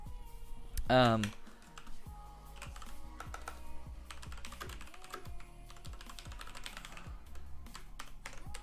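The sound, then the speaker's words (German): Typing on a computer keyboard while writing code for a frame-rate counter: a steady run of many quick, light clicks and taps continuing throughout, with a brief louder tonal sound near the start. “Ich tippe das jetzt einfach mal kurz so ab und versuche zu verstehen, was ich damals gemacht habe.”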